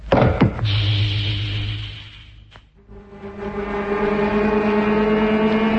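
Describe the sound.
Pumps start up aboard a freighter with a loud mechanical roar. It dips briefly, then settles into a steady, droning machine hum with a sustained tonal whine.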